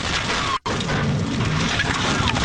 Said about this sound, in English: That explosion that you hear at the beginning here, I'll play it again.